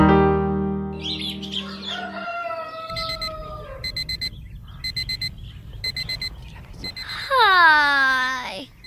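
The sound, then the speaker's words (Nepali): A morning alarm clock goes off in several repeated groups of rapid, high-pitched beeps, following a sustained musical tone; a loud rooster crow rings out at the end. “आज पनि छ बजिसकेछ। Alarm भन्दा पहिले उठ्छु भन्छु, जहिले अलार्मले जितिहाल्छ।”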